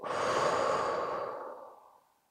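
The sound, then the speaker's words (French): A deep breath blown slowly out during a sophrology relaxation exercise: one long, soft rushing exhale that starts full and gradually fades away over about two seconds, heard alone with no talk. “À l'inspiration, on rassemble ce négatif et en soufflant, on s'en libère.”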